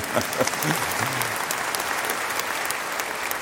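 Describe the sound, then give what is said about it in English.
Audience applause during a sermon: a steady, dense wash of clapping that lasts throughout. A voice is briefly audible at the start. “Yeah, you can clap if you want.”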